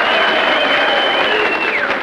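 Delegates cheer and applaud at a political convention, a dense, loud, continuous roar of crowd noise with clapping that holds steady throughout.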